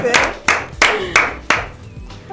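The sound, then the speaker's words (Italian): Hand claps from an audience at a live show: five loud, evenly spaced sharp claps in a slow rhythm, followed by one softer clap. “Comunque, un applauso. Grandi!”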